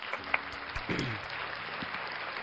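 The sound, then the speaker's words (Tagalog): Congregation applauding after a Bible reading during a church service: a steady, even wash of clapping that holds at a moderate level for the whole stretch. “Salamat sa Panginoon sa pagkabasa ng kanyang banal na salita. Palakpakan po natin natin.”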